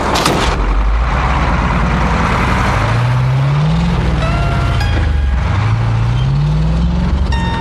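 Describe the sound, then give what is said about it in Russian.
Truck driving off along a road: a loud, constant engine rumble whose tone climbs, drops and climbs again as it shifts through gears. “Стоя у дороги, Алексей и Энни долго машут вслед грузовику. Тот проезжает мимо зеленого указателя”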